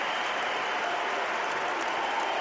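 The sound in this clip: Dense, steady applause from a stadium crowd of about 23,000 at a US Open tennis final, cheering the runner-up at the trophy ceremony, an even roar of clapping with no talk.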